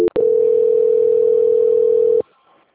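Telephone tone on a line while a call is transferred: a brief blip, then one steady, loud, single-pitched tone held for about two seconds that cuts off abruptly into near silence.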